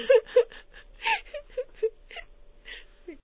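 A woman sobs softly, a series of short, breathy whimpering cries with wavering pitch, each brief and separated by small pauses.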